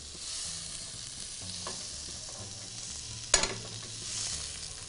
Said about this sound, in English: Just press, press against the surface of the bread so it gets nice contact with the surface of the grill pan. Get some nice grilling action here, nice grill marks.